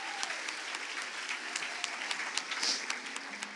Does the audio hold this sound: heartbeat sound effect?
no